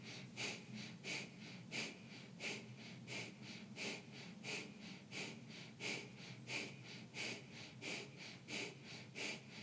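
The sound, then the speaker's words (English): Breath of fire during a breathwork session, with quick, forceful breaths in and out through the nose. Soft, rhythmic puffs repeat at a steady, even pace throughout, faint and with no talking. “We're going to start with a gentle breath of fire. So in through the nose. Out through the nose.”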